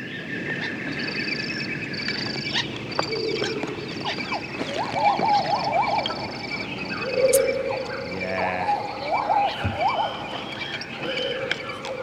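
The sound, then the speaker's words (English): Dense forest ambience of a fictional alien moon, layered with frog-like croaks and chirps, repeated short rising trills and high whistling calls over a steady background hiss that continues throughout. “That is the sound of the forest moon of Endor, I believe.”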